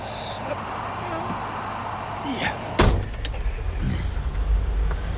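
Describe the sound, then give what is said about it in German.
A car door shuts as someone gets into a car: one sharp, loud thud partway through, then a low rumble continues to the end. “Steig ein, ich nehme dich mit zurück nach Marnes. Aber zieh dein Mantel vorher aus, im Auto ist es bullig heiß.”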